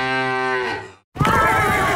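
A cow's moo comes from a novelty mooing milk bottle: one long, low, buzzy call rich in overtones that fades away, then after a brief silence a louder, dense burst of other sound begins.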